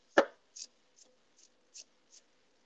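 Food being chopped with a knife: one hard, sharp chop followed by five lighter, quieter taps at a loose, uneven pace, with no talking.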